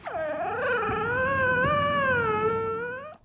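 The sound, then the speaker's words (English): A puppy whimpers in one long, high, wavering whine that sounds somewhat cat-like. It opens with a brief falling sweep, then holds a steady, moderately loud tone for about three seconds before cutting off. “So the first is, of course, his puppy”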